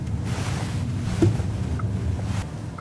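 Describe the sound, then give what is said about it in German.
Steady low rumble and broad road and wind noise from a car driving out of a garage and around a city neighbourhood in Basel. The noise is continuous and fairly loud, with no voices. “Erika fährt aus der Garage und dreht eine Runde durchs Basler Gundeli-Quartier.”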